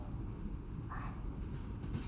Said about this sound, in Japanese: さあどうぞ列車の音に耳を澄ませてみてください。ゴトンゴトン、